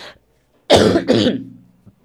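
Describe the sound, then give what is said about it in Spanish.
A single person coughs, a loud double burst of two harsh, breathy hacks in quick succession, trailing off into a brief throaty rasp, with silence before it. “Por eso me viene la tos en ese momento, me cae en esto.”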